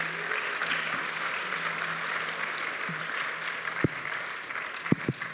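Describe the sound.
Audience applause as speakers are thanked, steady, fairly soft clapping throughout with a few sharper, louder claps standing out near the end.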